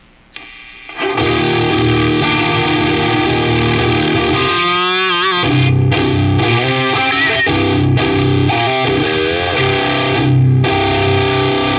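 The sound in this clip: Electric guitar through a Silverback high-gain distortion pedal, a thick, saturated tone with fat highs, mids and lows; loud sustained chords ring steadily, with wavering, bending notes midway before the heavy chords return.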